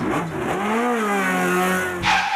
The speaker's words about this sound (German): Also rein in den Dienst Porsche und auf in die Wedemark.